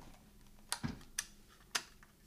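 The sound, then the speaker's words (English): The tape in a tape recorder being swapped out: four faint, sharp plastic clicks and clunks, one with a duller low thump, spaced irregularly over quiet background. “I gotta swap out the tape.”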